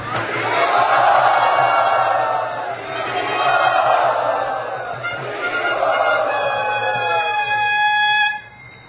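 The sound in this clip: A crowd chants loudly in welcome of a guest, voices joined in three long swelling phrases that rise and sustain before the last one breaks off abruptly.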